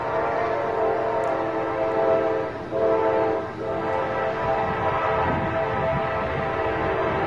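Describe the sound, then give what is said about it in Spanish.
A train approaches and passes amid wind, producing a loud, sustained rumbling roar with steady tonal hum lines. The sound holds nearly constant for the whole stretch, with two brief dips midway. “Este es un tren que al final vemos cómo se acerca y crea el efecto Doppler, ahí va.”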